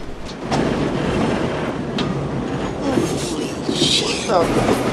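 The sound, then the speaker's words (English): A train hurtling past on the adjacent track gives a steady, loud rumble with rattling wheel clatter that holds for the whole stretch. “He crouches on the roof and watches as the adjacent train hurtles past.”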